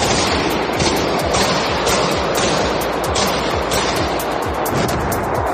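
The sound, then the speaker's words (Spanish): Automatic weapons gunfire during an armed attack in a crowded concert hall: a dense, loud, continuous crackle of rapid shots that blurs into a steady roar with no breaks and no voices. “Este era el momento en el que al menos cuatro hombres armados han comenzado a disparar con armas automáticas en una sala de conciertos abarrotada del centro comercial Crocus City Hall”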